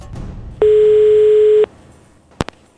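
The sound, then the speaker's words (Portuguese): Ringback tone as a telephone call is placed: one loud, steady tone lasting about a second, followed by a pause and then two quick clicks on the line. “Agora, ligando pra Sérgio Xavier Filho.”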